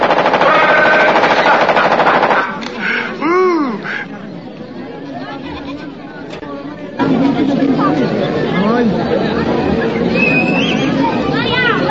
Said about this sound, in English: Now this here is a Steyr AUG. Steyr AUG's a bad motherfucker. Listen.